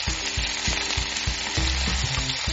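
Steak searing in hot vegetable oil in a pan, a loud, steady sizzle with dense, rapid crackling that runs throughout without pause and with no talk.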